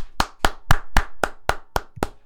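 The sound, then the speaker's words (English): Eight sharp hand claps in a quick, even rhythm, each crisp and fairly loud, given in celebration of a Detroit Lions football win. The claps sound alone with no voices. “Let's clap it up for them.”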